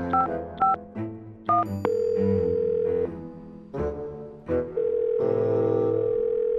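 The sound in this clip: A telephone number is dialed on a keypad, giving a few short electronic beeps at shifting pitches, followed by longer sustained tones alternating with more brief beeps, alone and clear.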